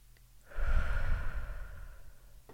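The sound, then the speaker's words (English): A deep breath drawn in by one person during a calming breathing exercise: a single long, soft, airy inhale lasting over a second, then fading out. “This is why you need to breathe, deep breathe every day. This is why we need to connect with our loved ones every day. Okay, breathe in.”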